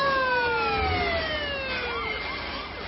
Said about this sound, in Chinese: 轿车的外边是移动的城市，警车围着这个大轿车正在开路。